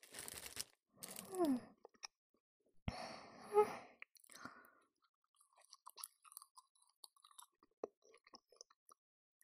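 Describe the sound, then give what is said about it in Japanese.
Chewing of melon bread: a few louder, broad rustling bursts early on give way to many small, soft crunchy bites and mouth clicks, faint and irregular, with no talk. “さーて、こいつの味は。いただきます。 はい、うん、うん、私はメロンパン。”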